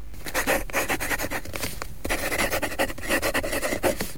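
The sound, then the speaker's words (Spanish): A quill pen, dipped in ink, scratches across paper, producing a continuous dry rasp made of many quick, uneven strokes. The sound is fairly loud and heard alone, without voices. “Mojamos la pluma y escribimos el nombre de...”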